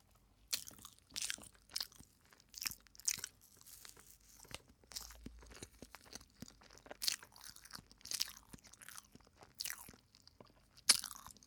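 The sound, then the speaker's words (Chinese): Crisp crunching as a cheese ball is bitten and chewed: many sharp, irregular crunches with short gaps between them, clear and close, with no talk. “这家的芝士球做的可好吃，得尝尝。”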